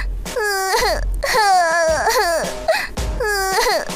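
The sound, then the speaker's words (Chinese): A person crying and sobbing in loud, drawn-out wails, about three long bursts whose pitch bends and wavers, with no talk over them. “怎么了？你怎么哭了？”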